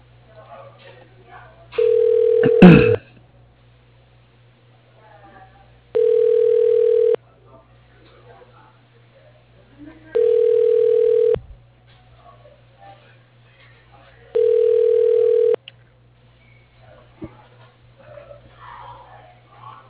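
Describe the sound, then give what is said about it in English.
A telephone ringback tone sounds while a call is being transferred: four evenly spaced bursts of about a second each over a steady low hum, with a brief click near the first ring. “Or you may dial 0 for the operator. Thank you and have a great day. Your call is being transferred.”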